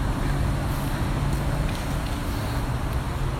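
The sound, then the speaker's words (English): Street traffic on a walking tour through Durham, an even wash of road noise from passing vehicles with no single event standing out. “Sorry, we're getting directions on this walking tour through Durham as we speak here, and as we jaywalk across the street.”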